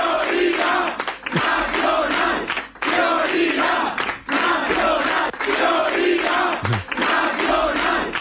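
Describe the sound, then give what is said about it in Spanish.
Political party supporters chanting a slogan in unison on election night, loud rhythmic phrases repeated with short dips between them, many voices shouting together throughout. “El sonido de la noche electoral estuvo en los cánticos de los simpatizantes de Vox, prioridad nacional”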